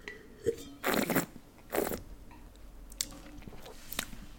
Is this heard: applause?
no

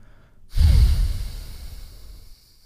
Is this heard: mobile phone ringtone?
no

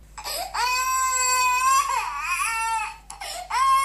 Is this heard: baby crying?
yes

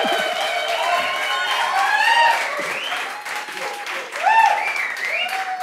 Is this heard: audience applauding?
yes

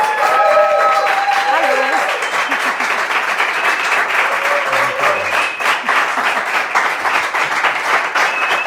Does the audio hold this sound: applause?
yes

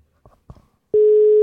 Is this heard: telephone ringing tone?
yes

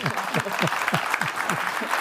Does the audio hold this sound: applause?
yes

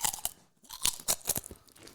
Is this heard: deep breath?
no

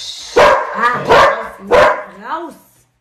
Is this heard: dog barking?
yes

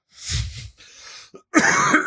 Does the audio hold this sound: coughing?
yes

